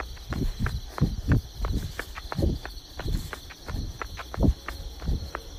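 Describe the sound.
Running footsteps on a quiet road with no traffic: a steady, even rhythm of many distinct footfalls, each a dull thud, continuing throughout at a moderate level.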